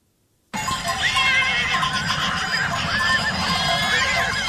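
Wild horses neighing as they are driven down from the mountains in Spain: after a moment of silence, loud, overlapping whinnies from several horses run continuously, rising and falling in shrill repeated calls with no talk.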